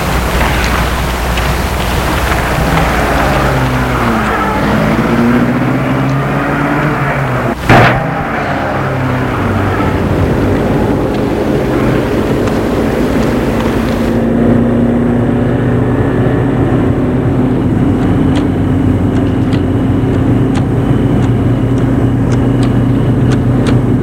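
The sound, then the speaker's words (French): A taxi car pulls away and drives on: a steady engine drone with rising tones early as it gets moving, one brief sharp knock partway through, then an even, continuous hum. “Une fois dans la rue, un taxi l'attend. Elle entre, elle donne l'adresse. Le taxi démarre.”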